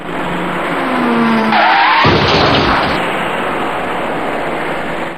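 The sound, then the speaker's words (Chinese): A white minivan drives through a T-junction over steady, loud road noise. A brief tire squeal sounds midway, followed by a sharp bang, and then the even road rumble continues. “很快一辆白色小客开了过来，您注意看。”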